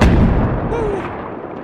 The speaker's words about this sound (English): Grenade.